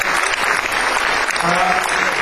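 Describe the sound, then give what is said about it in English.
An audience at a music cruise event applauding, a steady, dense wash of many hands clapping that runs loud and even throughout. “So I think a round of applause.”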